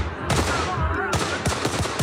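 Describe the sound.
Pistol gunshots ringing out during a shooting in a nightclub, a rapid, loud series of sharp cracks with a dense roar between them.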